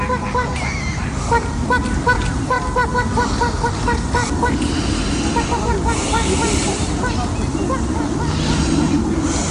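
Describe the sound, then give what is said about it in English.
A human voice imitates a duck, quacking loudly in a nasal, honking tone. Many quacks run in a fast, steady stream for several seconds. “Quack, quack, quack, quack, quack, quack, quack, quack”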